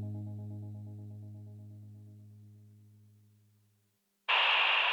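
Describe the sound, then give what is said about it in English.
Dead-air static from a radio station off the air: a low humming tone slowly fades out over about four seconds, a moment of silence follows, then a sudden loud burst of hissing static. “Hear that? That's the sound of Ultra 106.5 off the air.”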